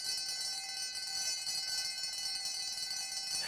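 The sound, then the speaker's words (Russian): A school bell rings to end the break, a steady, shrill ringing with bright high overtones that holds without pause for the whole span. “Звонок. Все на свете кончается, даже большая перемена.”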